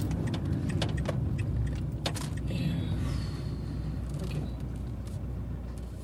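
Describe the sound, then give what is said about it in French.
A car being parked gives a low, steady engine rumble, with a few faint clicks and light rattles on top. It stays quiet throughout. “Attends, je vais me garer là.”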